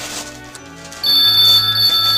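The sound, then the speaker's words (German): An electronic telephone ring during a Christmas gathering, a bright, high tone that starts partway in over a steady low hum, with no talk. “Willst du das Telefon nicht abnehmen”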